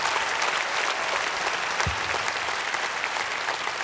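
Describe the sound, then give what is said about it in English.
An audience applauds the graduates with dense, steady clapping that holds at an even level for the whole stretch. “And we want to say congratulations to all of the graduates. Would you give them all a hand? Congratulations.”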